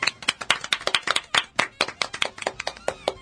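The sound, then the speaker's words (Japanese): Hand clapping from a small group of people: many sharp, crisp claps in an uneven rhythm, loud and distinct, with brief gaps between the strikes. “はい、ありがとうございます、はい、拍手”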